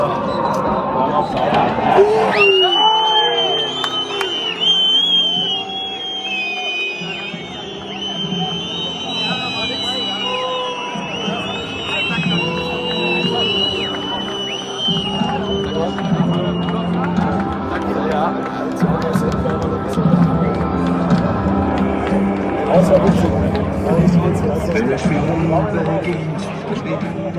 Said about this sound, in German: Und ich habe mir gedacht, ich nehme mal die Momente rund um den Abpfiff auf. Das ist das Ergebnis.